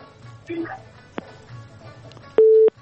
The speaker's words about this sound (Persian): خب تماس به هم قطع شو.